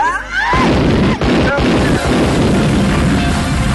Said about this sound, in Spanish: Acabo de explotar una bomba